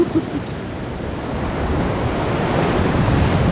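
Ocean waves break at a seldom-working surf spot during a rare, large swell of about six metres. A continuous roaring rush slowly grows louder, with wind buffeting the microphone.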